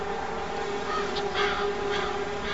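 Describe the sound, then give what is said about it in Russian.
Jackdaws and rooks caw as they fly off bell towers. A few faint, hoarse caws rise briefly above a steady background hum and hiss. “музыка этого места, то бишь голоса галок, голоса грачей, слетающих с колоколен. Это кар-кар.”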